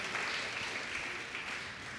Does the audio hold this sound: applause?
yes